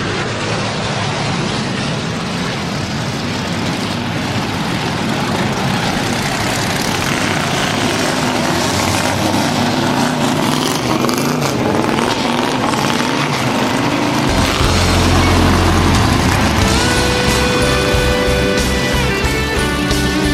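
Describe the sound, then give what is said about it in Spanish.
Turismo Carretera race car engines start and run in a dense, loud, continuous roar, with a deeper throbbing rumble joining about three quarters of the way through. “Gentlemen, start your engines.”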